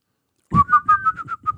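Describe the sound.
Someone whistles a song melody as a quick series of about seven short, bright notes in a bouncy, even rhythm, heard alone.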